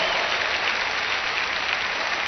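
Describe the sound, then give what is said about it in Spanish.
A church audience applauds during a service, a dense, steady wash of many hands clapping at once that holds even throughout without pause. “Dele un aplauso al Señor Jesús en esta mañana.”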